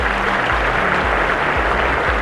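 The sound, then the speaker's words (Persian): Steady applause celebrates a couple's 25th wedding anniversary, a dense, even patter of clapping that holds throughout over a faint low hum. “اول یه تشویق کنم که 25 سال”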